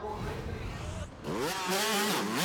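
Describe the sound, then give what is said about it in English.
Two-stroke 250 and 125 motocross bikes in 90s kits race a floodlit track in Southern California at night. Engines rev loudly from about midway, their pitch climbing and dropping in quick, repeated sweeps. “it's not just the 250s that are hitting this track. The 125s are also here in full force and, of course, in their full 90s kits.”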